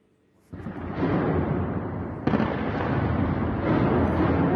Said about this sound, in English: And Iranian channels have published this footage on social media, claiming to show the activation of air defense systems in the capital. It shows several bright flashes accompanied by loud blasts in the vicinity,